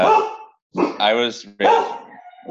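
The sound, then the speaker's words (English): A dog barking in three drawn-out, loud vocal bursts separated by short gaps, with no other sound around them. “go bark at it, go somewhere else. And he also has a one-year-old golden retriever.”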